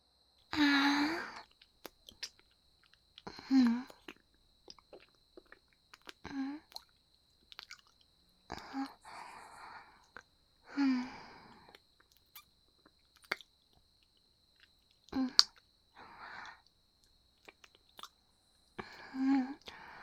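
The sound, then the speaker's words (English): Quiet wet mouth sounds of someone tasting and chewing: irregular squishy smacks and bites mixed with breathy sighs and soft murmurs, coming in many separate bursts with silent gaps over about twenty seconds. “I guess that means it is okay for me to taste it then. Well, thank you for the meal.”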